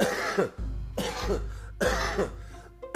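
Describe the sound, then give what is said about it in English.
Harsh coughing, a smoker's cough after smoking weed, comes in a few rough, breathy bursts separated by short pauses, with a low hum running steadily underneath. “that's that weed cough right there.”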